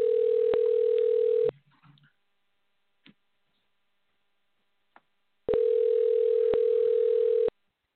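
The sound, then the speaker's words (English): A telephone dial tone sounds while a call is being dialed: a steady, loud, mid-pitched hum for about a second and a half, then near-silence broken by a few faint clicks, then the same tone again for about two seconds. “So let me dial up real quick. Hopefully he's good to go.”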